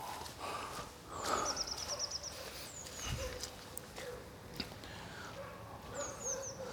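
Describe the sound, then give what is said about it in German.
Dogs barking excitedly outdoors among scattered felled tree trunks. A few barks rise out of a steady, rushing background, and high, quick birdsong trills can be heard at times. “Wildes Hundegebell. Dabei hat überhaupt keiner geböllert.”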